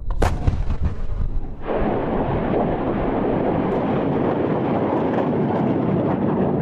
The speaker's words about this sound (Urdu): اسرائیلی توپیں گولے برسانے لگیں۔